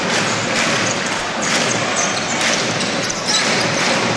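Basketball dribbled during a Scafati professional game, repeated bounces thudding beneath a loud, continuous arena crowd roar.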